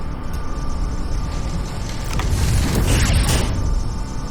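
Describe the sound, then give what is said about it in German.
Steady mechanical whirring and rumbling of an elevator descending in a video game, a continuous grinding drone that swells louder through the middle stretch before easing slightly. “In einem Lift fahre ich abwärts. Auf der Höhe eines Lüftungsschachts muss ich den Lift anhalten.”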